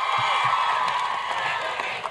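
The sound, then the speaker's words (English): Crowd cheering and chanting at a Hillary Clinton campaign rally in Iowa comes through as a steady, dense roar of many voices with no single word standing out. “As the crowd chanted her name, Clinton stepped up.”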